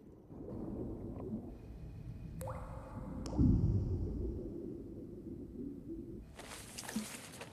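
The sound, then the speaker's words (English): Water bubbling in a bath: a steady low gurgling and churning that runs throughout, with a brief thin squeak near the middle and a sharper airy hiss toward the end. “Water bubbles in the bath.”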